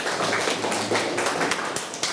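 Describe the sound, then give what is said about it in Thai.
Applause from a group of students for a classmate about to give a presentation: a dense, continuous patter of many hands clapping at once, steady and fairly loud throughout. “เชิญปรบมือให้มะลิด้วย”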